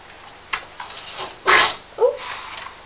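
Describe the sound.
A single sharp sneeze bursts out as one short, loud, breathy blast, surrounded by a few fainter soft noises.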